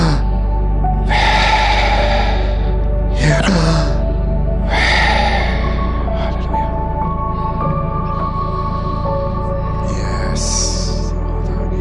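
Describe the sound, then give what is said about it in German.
A group at a religious gathering takes a few deep, airy breaths in together, each one a broad whoosh heard over a steady, loud background hum. “Ganz tief einatmen.”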